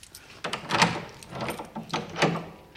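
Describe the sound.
A room door being unlocked and opened gives a few sharp clicks and knocking rattles of the lock and handle, moderately loud, spread over a couple of seconds with no talk.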